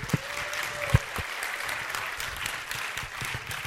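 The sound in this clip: An audience claps for seated participants after a group activity at a talk: steady, even applause with a couple of louder sharp thumps near the start.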